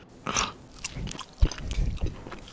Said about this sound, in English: He takes a few bites of the sandwich.